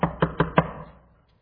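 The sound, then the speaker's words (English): Four firm knocks on a bedroom door, spaced roughly evenly, each one a short hollow thud with a brief ring, then fading into silence. “there's a knocking at the door.”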